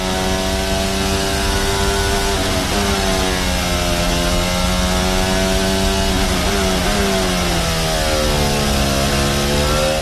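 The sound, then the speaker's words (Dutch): Onboard engine sound of a Formula 1 car during a race: a loud, continuous, high-pitched engine whine that climbs through the revs, with a few abrupt pitch drops at gear shifts and no talk. “Onboordgeluid komt van Lando Norris.”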